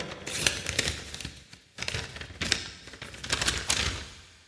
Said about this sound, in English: That was really loud. Did you hear that? Listen. That's a big rip.